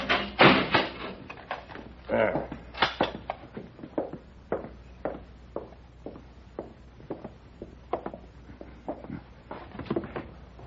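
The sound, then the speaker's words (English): A jail cell door is shut and locked, heard as a string of knocks, clunks and sharp clicks at uneven intervals, loudest at the start and fainter after. “All right, Paladin, but I'll have to lock you in.”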